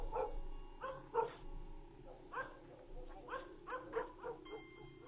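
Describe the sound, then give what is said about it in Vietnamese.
Dogs bark noisily in many short, sharp yaps, coming in irregular clusters over a quiet background, fairly faint overall. “Bất giác có tiếng chó sủa inh ỏi, vang lên.”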